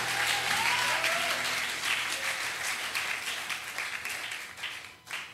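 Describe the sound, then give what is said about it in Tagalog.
Applause from a church audience during a sermon, a sustained, dense wash of many hands clapping that stays strong, then thins and fades toward the end. “Palakpakan nga natin ang Panginoon.”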